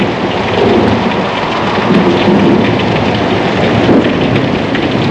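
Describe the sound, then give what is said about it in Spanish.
Heavy rain pours down in a thunderstorm over the sea, a loud, dense, continuous hiss with deep rumbling thunder rolling beneath it throughout, and no voices. “La lluvia forma una catarata ensordecedora delante del horizonte hacia el que vamos como un grupo de insensatos.”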